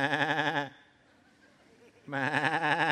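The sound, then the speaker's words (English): Two loud, wavering sheep bleats separated by a short quiet gap, each a nasal, quavering cry with a strong buzzy tone. “it's the sheep and all the ox and all the animals that the people under Saul's leadership took from the Amalekites.”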